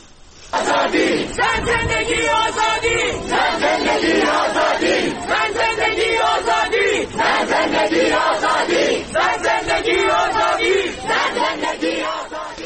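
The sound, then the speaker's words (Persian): University students chant a protest slogan over the death of Mahsa Amini. Many voices shout loud, rhythmic phrases in unison, with brief pauses between repetitions. “این شعار روز گذشته در مراسم تشییع پیکر مهسا امینی یا ژینا در کردستان سر داده شده بود. بشنویم صدای دانشجویان رو”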